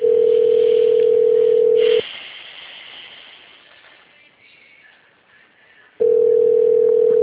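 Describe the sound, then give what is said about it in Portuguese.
A telephone ringback tone sounds while a call connects: a loud, steady tone lasting about two seconds, then a pause of faint hiss, then the tone returns. “Olá, você ligou para a ANEC. Para... Conectando.”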